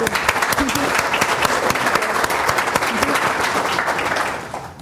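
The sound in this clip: Audience applause welcoming a climate scientist to a talk, a dense, even patter of clapping hands that holds steady before tapering off at the very end.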